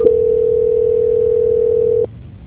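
A steady, single-pitched telephone tone sounds during a call transfer, holding evenly for about two seconds before cutting off abruptly and leaving only a faint low hum.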